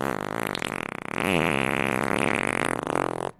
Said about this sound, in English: who may or may not add a fart sound in right here